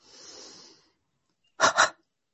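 Yoga resurrection breath: a long, soft hissing breath, then a brief silence, then two sharp, forceful bursts of breath in quick succession, louder than the first.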